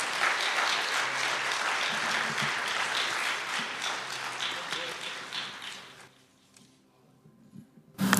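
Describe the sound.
Audience applause welcomes a guest speaker at a church service: dense, steady clapping for about six seconds that fades to near quiet before a voice starts.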